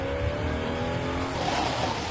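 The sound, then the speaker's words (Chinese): A car brakes hard with its tires screeching, a steady, high tonal squeal lasting over a second above continuous rumbling road and engine noise, then fading into the rushing vehicle sound. “不能因为你赶时间就无视我的安全。 哎，趁你没车，快快快！ 不能因为看起来空旷就以为我一定来得及刹车。”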